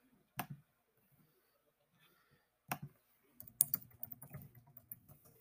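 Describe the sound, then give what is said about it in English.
Faint computer-keyboard typing. Two isolated key clicks are spaced well apart, followed by a quick, uneven run of many keystrokes. “I bet you if I type in Tom Hiddleston”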